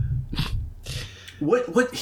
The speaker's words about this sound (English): I don't know if he's clearing his throat. Is it a sinus thing?